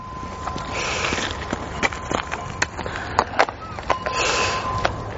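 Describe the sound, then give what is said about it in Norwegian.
A cyclocross rider hopping on the ground while remounting a bicycle, heard as several sharp, irregular thumps and clatters over a constant noisy background. “Du er rett og slett litt for redd for å lande hardt på setet, og du hinker når du skal på sykkelen.”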